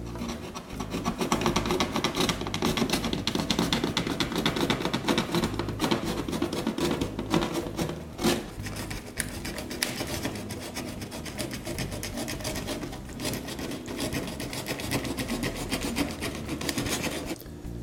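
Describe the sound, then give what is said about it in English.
A sharp blade cuts an angled bevel along board edges, giving steady rasping, scraping strokes that continue without a break for the whole stretch, with no talking. “But we're going to cut this, these edges and we're gonna cut an angle on them. So we have a really sharp blade”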